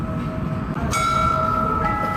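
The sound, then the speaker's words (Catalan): A bell rings as a metal angel figure strikes it on a clock tower with a mechanical puppet show, a deliberately crooked tower with handmade ceramic pieces. A clear ringing tone starts suddenly and lingers over steady background noise. “s'obre una porteta a la part superior i un àngel de metall surt per picar la campana”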